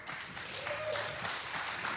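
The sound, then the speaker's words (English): Audience applause welcoming two guests: a dense, steady patter of clapping that holds at an even level for about two seconds without a break. “Let's have a hand for Big Buddha and Brett.”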